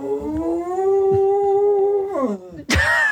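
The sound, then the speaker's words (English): A dog howling: a long, loud, sustained wavering howl that drops in pitch toward its end, then breaks into a sharp, higher yelp. “That was my dog answering my question.”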